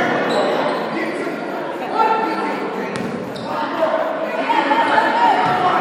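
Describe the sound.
A basketball dribbled on the court during a men's game, its bounces buried in a dense, steady roar of crowd noise and chatter.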